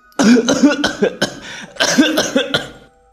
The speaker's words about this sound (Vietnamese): Bà ngạt thở ho khủ khủ.